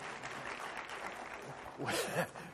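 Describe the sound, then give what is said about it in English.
A church audience applauds faintly, producing a soft, continuous wash of clapping, and a voice briefly rises over it near the end. “you should definitely clap on that right now. Come on, let's put our hands together.”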